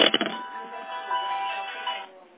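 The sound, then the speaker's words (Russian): A phone ringtone signals an incoming call. A few quick clicks come first, followed by a faint, steady tonal melody lasting about two seconds before it cuts off. “сейчас подождите, мне директор звонит, подождите”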